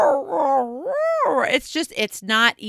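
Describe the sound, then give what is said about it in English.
A voice imitates coyote howls to mimic a rumbling stomach, with wavering, rising and falling pitch, then breaks into short choppy vocal sounds. “Mom, is your stomach going off? I mean, you could hear the coyotes. I've told and shared the story of my coyotes in the stomach.”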